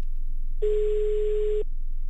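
A single telephone ring tone on an outgoing phone call: one steady mid-pitched tone lasting about a second, over faint line hiss.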